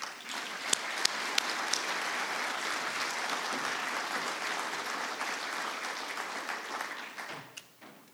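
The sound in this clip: Applause from an audience welcoming a speaker to an evening event, dense and sustained, with a few sharper individual claps early on, before it thins and fades out near the end.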